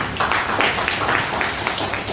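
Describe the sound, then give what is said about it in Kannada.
An audience applauds at a DXN business meeting. Steady, dense clapping continues through the whole moment without a break. “Okay, ಎಲ್ಲರಿಗೆ ಚಪ್ಪಾಳೆ ಕೊಡಿ.”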